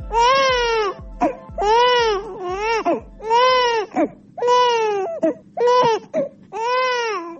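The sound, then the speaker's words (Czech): An infant in Bosnia and Herzegovina cries loudly in a series of rhythmic wailing bursts, each rising and falling, separated by short gasping breaks. “Ovaj zvuk plača bebe u Bosni i Hercegovini sve se slabije čuje.”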